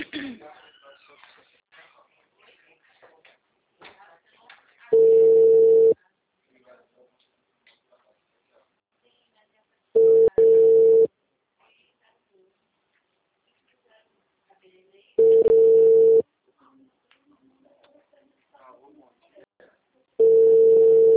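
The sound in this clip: Telephone tones while redialing a dropped call: four long, steady tones, each about a second, spaced roughly five seconds apart, with faint low sounds between them.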